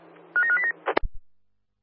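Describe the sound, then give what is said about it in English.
Electronic telephone tones sound while ground staff stand by for a phone call: a short run of steady beeps at two alternating pitches, followed by a few sharp clicks and dull knocks before the line falls silent. “Code 11, stand by for a phone call.”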